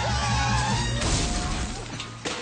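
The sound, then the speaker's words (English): A car crash as a car goes out of control and ends up smashed by a fountain: a continuous noisy rumble broken by two sharp impact hits, loud throughout. “A car wheel rolls past. Rat covers Mole's anxious face. Toad sits by a fountain with his smashed-up car.”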